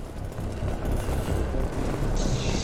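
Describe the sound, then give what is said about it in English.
Pistol gunfire in a video game: a loud, dense barrage of shots and blasts runs continuously with no clear gaps, forming one sustained wall of noise. “Doing this whole thing with a pistol.”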